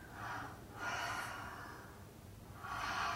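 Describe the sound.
Slow, deep breathing during a guided breathing exercise: a few quiet, airy inhales and long, drawn-out exhales, heard alone without talk.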